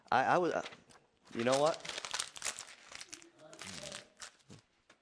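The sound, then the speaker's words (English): A paper order of service is crumpled during a church sermon, giving a crackling, rustling crunch that sounds between and under a preacher's speech. “I'll throw away this schedule, this order of service that I type up every Sunday.”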